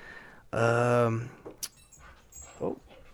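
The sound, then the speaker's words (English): A part-husky dog indoors lets out one drawn-out, tonal whining howl lasting about half a second, followed by a few fainter, softer noises. “my dog's in here now. She comes in pretty much every podcast. She's probably gonna speak here in a second. She is part husky and she does make lots of noises.”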